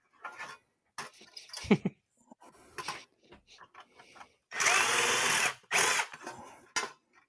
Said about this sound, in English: Once you're already drilled, it's not too hard to enlarge them tiny bit.